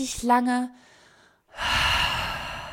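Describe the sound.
A person draws a faint breath in and then lets out a long, loud, breathy exhale after a brief moment of speech, in a breathing exercise.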